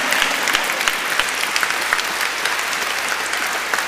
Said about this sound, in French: Acclamez-le.